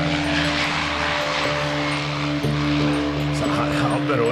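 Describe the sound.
Aircraft landing at a beach airport, heard as a steady, droning engine hum with a strong low harmonic tone that holds evenly throughout.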